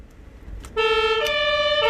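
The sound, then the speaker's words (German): A fire engine siren in Münster switches on at the press of a button: after a low rumble, a loud two-tone electronic wail begins abruptly and alternates between high and lower pitches. “Mitten im Feuerwehrwagen, Katrin. Und jetzt darf ich das Knöpfchen drücken.”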